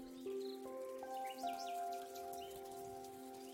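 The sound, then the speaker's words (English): Faint, steady rain patters throughout, with a few sustained tones held over it. “as you're walking back in the rain,”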